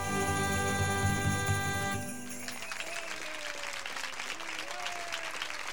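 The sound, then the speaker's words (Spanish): Steady crowd applause breaks out after a brief held tonal chord and carries on at an even, moderate level to the end, a dense patter of many hands clapping. “Hasta nos aplauden”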